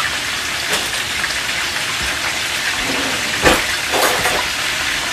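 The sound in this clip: Potatoes boiling in a pot of water, a steady bubbling hiss with scattered pops and a few louder splashes, heard alone without any talk.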